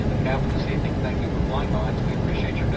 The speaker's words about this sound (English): Captain, we are taxiing to parking area 36.